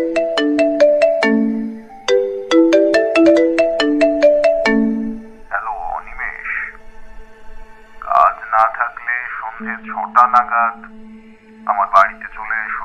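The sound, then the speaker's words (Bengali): A mobile phone rings with an incoming call at midday, a rapid melodic jingle of repeated bright tones, followed by voices talking over a sustained low tone. “হঠাৎই প্রফেসরের phone এলো।”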